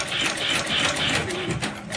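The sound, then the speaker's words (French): Sewing machine stitching a decorative seam on a leather belt, giving a steady, continuous mechanical whir and buzz with no pauses. “C'est une ceinture? Voilà. C'est la couture décorative de la ceinture.”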